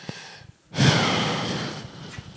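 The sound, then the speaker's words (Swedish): A single deep, loud, breathy inhalation during a medical examination swells suddenly, then fades gradually over about a second, with softer breaths before and after. “Nu ska vi göra så här. Andas in djupt.”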